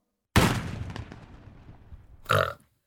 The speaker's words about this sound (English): You were sleeping, and Lincoln got shot.